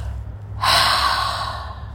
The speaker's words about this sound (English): And now we can exhale,